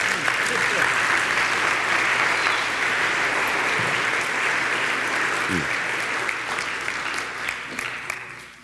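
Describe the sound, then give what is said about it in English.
An audience applauds to welcome two guests brought up at a morning gathering. The dense, steady clapping from many hands holds at a strong level for several seconds, then tapers off toward the end. “This is Lowndes Pope and Robert Lafitte, friends of mine, downtown Columbia. Would you welcome them this morning, please?”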